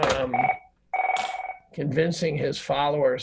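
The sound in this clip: A phone rings in two bursts of steady, bright electronic tone separated by a short gap, with a voice talking just before and after the rings.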